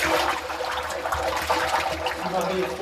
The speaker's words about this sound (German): Jetzt wird die Maische für den neuen Brand in die Brennblase gefüllt.